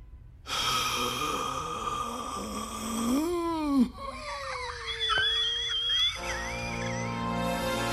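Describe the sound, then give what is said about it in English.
A cartoon father character from Mission Hill wheezes out his last breath: a strained, wavering voiced rasp whose pitch bends up and down over a steady tonal background before trailing off. “So, Weirdie's dad, he drops that line and then quite literally just die. Wheezes his last breath.”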